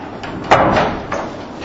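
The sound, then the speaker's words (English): A door is pushed shut with a soft thud, followed by a second, fainter knock from the latch, all within a second or so. “I'm going to close this other door.”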